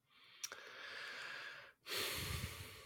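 A deep breath, one long airy inhale followed by a fuller exhale, soft and heard alone without speech.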